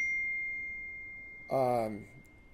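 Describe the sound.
A text message notification on a phone gives a single clear, high ding that rings on and fades slowly, followed by a brief vocal sound from a person.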